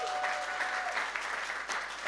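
A church audience applauds to welcome someone back from Nepal, with dense, steady clapping that holds at an even level for about two seconds.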